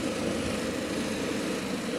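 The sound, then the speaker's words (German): An ADAC air rescue helicopter lifts off from a meadow beside the Irschenberg motorway rest area. Its engine and rotors make a steady, loud droning roar with no break. “der ADAC-Rettungshubschrauber, hebt eben von der Wiese an der Raststelle Irschenberg ab. Der Notarzt, die Luftrettung, hat einen Mitarbeiter der Firma Waldschütz aufgenommen.”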